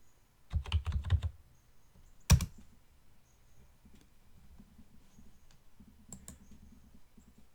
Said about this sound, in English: You can hear my computer.